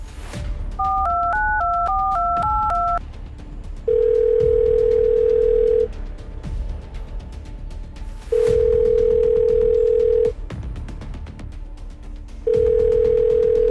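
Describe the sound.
Telephone keypad tones beep in a quick run as a number is dialed, then a steady calling tone sounds in three long bursts of about two seconds, separated by pauses, over faint background noise.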